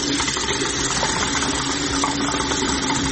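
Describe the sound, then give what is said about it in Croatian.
Tap water runs into a drinking glass as a steady, even rushing hiss that does not pause and has no voices over it. “Uzimam čašu, puštam česmu i sipam vodu.”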